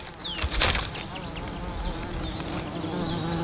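Insects chirp in autumn mountain woods, giving short, strong calls: a series of brief, high, dropping chirps repeats at a fairly even pace over a soft, steady buzzing background.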